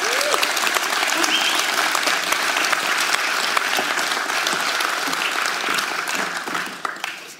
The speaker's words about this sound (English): So, Allison, why don't you come forward and give her a welcome.